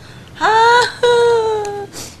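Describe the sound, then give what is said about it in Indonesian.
A child cries in two drawn-out, high-pitched wails separated by a short break, the second one longer and slightly lower, with little else around them. “Nangis dia.”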